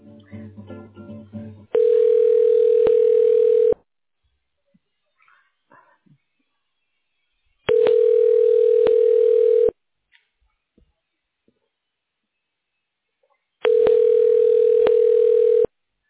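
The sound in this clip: Telephone tone while a call connects to a medical center imaging department: a steady mid-pitched tone plays in three even bursts of about two seconds each, separated by long silent pauses.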